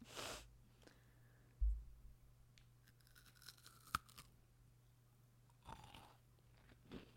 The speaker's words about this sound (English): We're about to do a little ASMR eating, and then I'm going to do a little review.